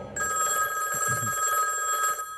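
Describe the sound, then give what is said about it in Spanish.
A telephone rings in a house in North Yorkshire, England. A single steady, fairly loud bell-like trill starts abruptly and runs about two seconds before cutting off. “Una noche, el teléfono suena en la casa de Lord Armstrong, en el norte de Yorkshire, Inglaterra.”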